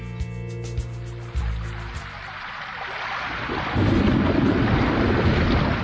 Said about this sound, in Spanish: Agua, cayendo del cielo, con furia y sin freno.